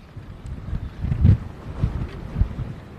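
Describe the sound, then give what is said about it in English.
Strong wind blows across a sandy ocean shore, buffeting the microphone with a low, rumbling roar that swells in several gusts, with no voices. “By the way, I'm not running. The wind is pushing me.”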